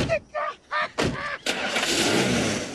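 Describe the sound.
Police car driving off: brief voices at first, then a sustained rushing engine and tyre noise that carries on to the end.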